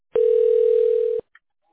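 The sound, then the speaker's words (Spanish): A telephone dial tone sounds as one steady, loud, mid-pitched tone for about a second, cut off sharply and followed by a single short, faint beep before silence. “Bien, voy a marcar en esos momentos. Permanezca en línea, por favor, no me vaya a colgar, ¿ok, Evelyn?”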